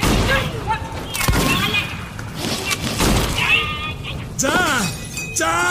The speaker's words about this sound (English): Okay, now, open fire.